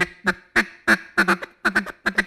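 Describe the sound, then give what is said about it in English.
A hunter imitates a duck's feeding chuckle call in many rhythmic, raspy quacking bursts. Most come singly, with some in rapid pairs, and the calls are loud and steady throughout. “that kind of sounds like a real duck. And so, you know, it doesn't sound good, but it sounds like a real duck.”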